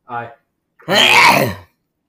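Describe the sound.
Throat clearing as someone hacks up phlegm: a short voiced grunt, then a longer, loud, harsh rasping burst of about a second.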